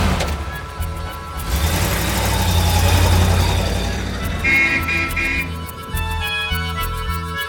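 A fast touring car's engine runs on a drive to Paris, a steady low rumble that swells toward the middle and then eases, with other sounds layered over it.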